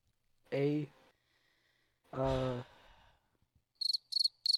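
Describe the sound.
Cricket chirping from a sound-effect button, heard as three short, high, buzzy chirps in quick succession at the end, after two louder, lower harmonic bursts.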